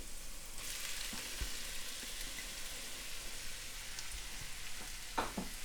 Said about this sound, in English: And into that, I'm also going to add in our minced onions.